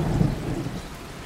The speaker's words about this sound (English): So people want rain on a tent, rain on a tarp, rain on a tin roof, on a slate roof. They want a big storm, or they want a light drizzle.